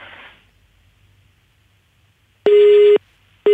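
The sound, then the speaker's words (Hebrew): A telephone busy tone after a disconnected call: a brief burst of static, a stretch of near silence, then loud, steady single-pitch beeps, one full beep followed by the start of another. “התנתק לנו? אוקיי, תכף אנחנו ננסה לחדש את הקשר.”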